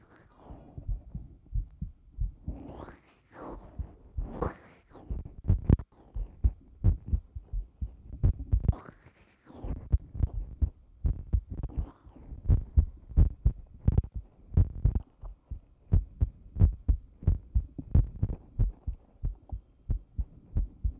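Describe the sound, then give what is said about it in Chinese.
A fast heartbeat, heard with an ear pressed close, makes a long run of low, soft thumps. The beats are many and evenly paced and keep up a quick rhythm throughout. “心跳好快呀，你在紧张吗？”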